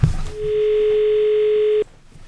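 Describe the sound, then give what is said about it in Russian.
Dial tone after a dropped phone-in call on a live studio line: a single steady, unbroken tone of about a second and a half that cuts off abruptly, with quiet background before and after. “Я не понажала, да? Или мы потеряли звонок? Мы потеряли звонок.”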